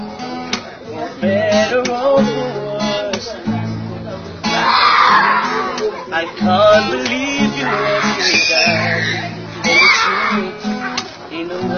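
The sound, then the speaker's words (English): Children scream and shout in the background, with noisy bursts of yelling rising now and then behind a prominent male voice that carries through the whole stretch. “Look, there's a bunch of screaming kids in the background,”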